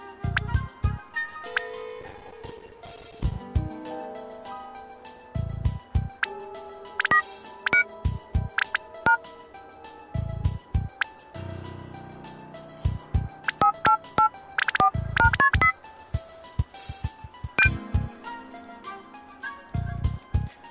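Phone keypad tones as codes are entered: many short electronic beeps in irregular bursts, mixed with other sustained electronic tones in between, with no talk.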